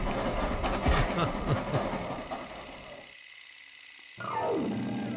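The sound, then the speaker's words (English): A locomotive train approaching with rumbling, rattling rail clatter. The sound cuts to near silence for about a second, then returns with a loud tone that slides downward in pitch. “You can stop that locomotive with your face.”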